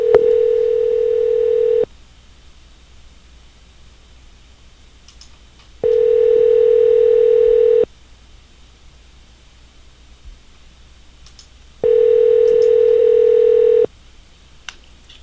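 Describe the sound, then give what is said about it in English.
Fake telephone ringing tone on a call hold line: three loud, steady buzzing bursts, each about two seconds long, separated by roughly four seconds of silence, with no voices. “That's great, fake ringing.”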